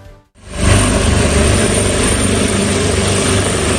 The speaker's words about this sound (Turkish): Mahsur kalanlar helikopterlerle kurtarıldı.